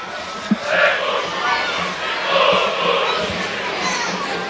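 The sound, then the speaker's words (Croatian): Dinamo football supporters sing in the stands of the Velika Gorica stadium during a match, a sustained, rolling crowd chant with a dense roar, while a voice talks over it. “traje pjesma sa one tribine na kojoj su smješteni Bad Blue Boysi. Vidimo značajan dio Dinamovih navijača i na ovoj glavnoj tribini Velikogoričkog stadiona.”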